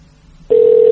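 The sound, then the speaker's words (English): A telephone ringing amid gambling: after a low hum, a single loud, steady, mid-pitched electronic tone starts halfway through and holds unbroken to the end. “I know the phone's ringing, but come on, I'm nearly there.”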